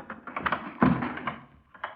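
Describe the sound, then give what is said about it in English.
A regulation police boot kicks a locked office door open, landing one loud, heavy thud amid a few lighter knocks and taps. “Then I'll open it. Stand clear. Some use for regulation police boots after all.”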